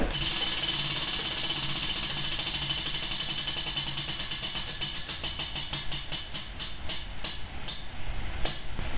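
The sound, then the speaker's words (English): A wheel being spun by hand, ratcheting with rapid, bright clicks that gradually slow and spread apart as it winds down, heard alone. “I'm just going to spin this and just spin the damn wheel.”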